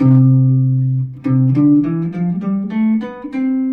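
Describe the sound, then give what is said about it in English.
An instrument plays the notes of the C major scale in ascending order from C up to the next C, as a series of clear sustained tones stepping upward in pitch, moderately loud and without talk. “Those are the notes in alphabetical order in the key of C, and they're going to sound like this, starting on C.”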